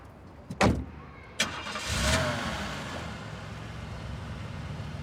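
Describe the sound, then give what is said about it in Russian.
A car engine starts after two sharp thuds, then settles into a steady mid-pitched rumble that slowly fades as the car drives away. “Машина уезжает.”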